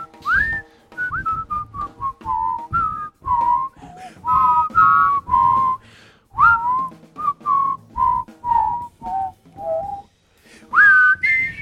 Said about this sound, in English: Well, it's harder when everybody's whistling in my ears, so this is all you.